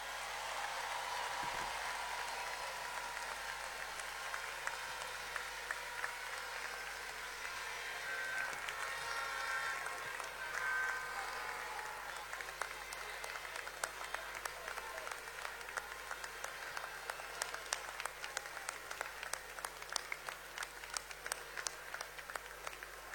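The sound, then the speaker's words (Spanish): Sustained applause from a large crowd at a political rally celebrating a president-elect: a dense, steady crackle of many hands clapping that continues without a break. “Todos aplaudamos al ciudadano frentista que nos vino a acompañar.”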